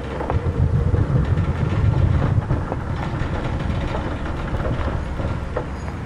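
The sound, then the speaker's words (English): Traffic on a highway heard from the roadside, a continuous low rumble of passing vehicles, slightly louder in the first half then steady, with no voices. “You get a grocery cart. You put all your luggage in it. And you stand by the side of the highway, which is exactly what I'm doing.”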